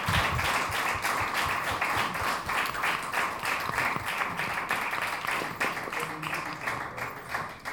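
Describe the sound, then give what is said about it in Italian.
Welcoming applause at a town council meeting for a newly seated councillor, a sustained patter of many hands clapping at a moderate level for nearly eight seconds, thinning a little near the end. “io propongo un applauso di benvenuto e buon lavoro.”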